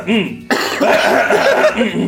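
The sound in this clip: Harsh coughing and throat clearing from a person mid-conversation, a brief voiced sound followed by a dense, rough burst of coughs that continues strongly to the end.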